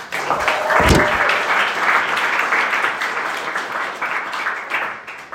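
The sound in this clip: Audience applause for a speaker at an evening gathering: steady, dense clapping throughout, with one heavier thump near the start.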